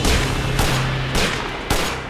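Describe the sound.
Gunshots fired into a crowd of sailors pulling at huge stone doors: four heavy, booming shots at fairly even intervals over a dense, continuous roar of noise.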